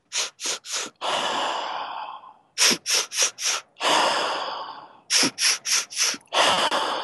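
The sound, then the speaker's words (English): Sufi breathing technique: three or four sharp, quick nasal inhales, each set followed by a long, exaggerated sigh of relief, repeated in three rounds with a steady rhythm and no talking. “It's like sharp, quick inhales, maybe 2 or 3 or 4, and then an exaggerated sigh of relief. So it's like this.”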